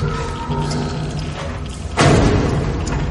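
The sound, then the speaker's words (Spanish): A building door closing into a dim room lands as a dull, heavy thud partway through, a broad low impact over a dense, steady rumbling background. “La puerta se cierra.”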